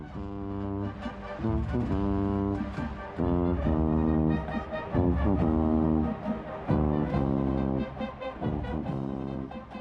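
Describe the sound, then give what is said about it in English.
Solo tuba playing a lively line of many low, round brass notes in a bouncy rhythm, with short gaps between phrases and no other instruments. “Consider what happens when you single out one instrument, the tuba. It sounds like this.”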